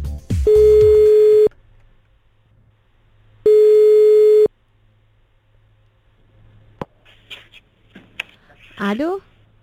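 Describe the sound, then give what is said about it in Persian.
Telephone ringing tone as a call is placed for a prize draw: two long, steady, loud tones separated by a pause of about two seconds, followed by faint clicks and a brief voice. “بله، بریم پس با هم دیگه قرعه کشی رو انجام بدیم. 3 2 1 بریم تماس بگیریم.”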